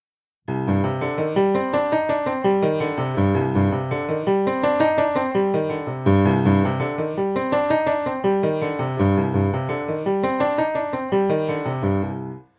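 A left-hand piano passage played in slow motion: steady runs of single notes rise and fall in repeating waves, evenly paced and fairly loud, with no other sounds.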